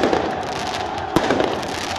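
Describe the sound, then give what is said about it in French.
Fireworks set off by supporters outside a stadium after the final whistle: a dense, steady crackling hiss with one sharp, louder bang midway through. “Les supporters qui tirent un feu d'artifice à l'extérieur du Parc des Princes que les joueurs voient depuis l'intérieur de l'enceinte.”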